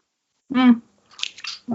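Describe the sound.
Someone chews a crunchy freeze-dried strawberry yogurt snack, making a few brief, crisp crunching bursts. A short hummed voice sound comes before the bites, and another begins at the end.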